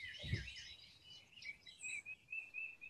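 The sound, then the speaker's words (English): Birds sing in faint, overlapping high chirps and warbles near the water, with no one talking. A brief low thump sounds near the start. “I hear the birds singing.”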